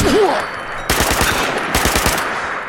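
Automatic weapon gunfire in a video game comes in two sustained bursts of rapid, sharp shots, each rattling for about half a second, separated by a short lull.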